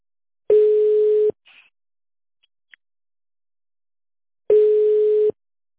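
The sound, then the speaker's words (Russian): Ringback tone of an outgoing phone call to a company: two long, steady, mid-pitched tones separated by a long silence, with a few faint clicks in between. “Звонок в Леспромторг. Алло.”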